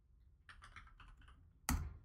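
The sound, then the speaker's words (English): Typing on a computer keyboard, a quick run of many soft, faint key clicks followed by one sharper, louder keystroke near the end. “Type in Richard Mille RM011.”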